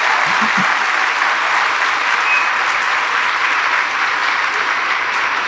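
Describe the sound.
An audience claps at a religious gathering, a dense, steady wash of applause from many hands that holds at an even loudness from start to finish.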